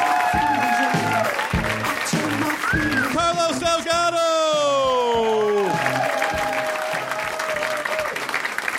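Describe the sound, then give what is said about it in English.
Audience applause at a stand-up comedy show: sustained clapping with a few whoops and cheers, loud and continuous while a performer speaks over it. “And this is where you clap.”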